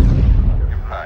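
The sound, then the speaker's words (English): A missile detonating in a film disaster scene, a loud, deep booming rumble that hits abruptly at the start and decays steadily over about a second. “the West Coast missile detonates”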